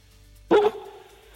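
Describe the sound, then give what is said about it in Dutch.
A dog gives one short, loud bark in a quiet setting, followed by a brief fading tail before the quiet returns. “De hond zei A, volgens mij.”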